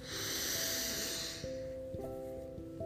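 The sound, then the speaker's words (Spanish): A person breathing in deeply, a soft airy hiss that swells and then fades after about a second and a half. Steady sustained tones of background music continue underneath and afterward. “No te olvides de respirar. Inhala.”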